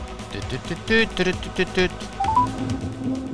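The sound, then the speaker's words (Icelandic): Touch-tone dialing beeps as a phone call is placed: a quick series of bright, evenly spaced tones, then a few higher beeps stepping upward, all over a low, busy background. “að ég ætla bara að láta vaða hérna í eitt símtal. Og hér kemur hann.”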